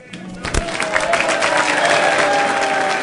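About 100 firefighters from the Uniformed Firefighters Association of Greater New York applaud President Bush as he arrives. The clapping is dense and steady, with a few sharper claps near the start and a continuous wash of crowd noise.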